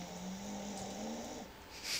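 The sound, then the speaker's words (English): A dog snorting: a faint, drawn-out, low nasal snore-like rumble, ending in one short, sharp snort. “That's our dog. She snorts.”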